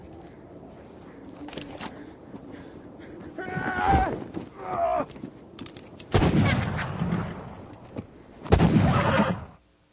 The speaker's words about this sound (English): Gentlemen, shooting cornbread out here on the prairie is getting us no closer to the Ned Pepper gang. One more. This'll prove it.